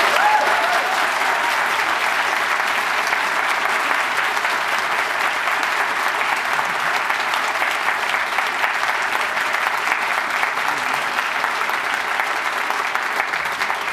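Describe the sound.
An audience applauds authors on stage at a writers' event with dense, even clapping that holds steady and loud for about fourteen seconds.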